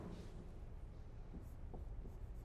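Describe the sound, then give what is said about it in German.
Someone writes a word on a board during a lecture, making faint, irregular scratching strokes over a steady background hiss. “Ruach. Ich schreibe mal hier hin.”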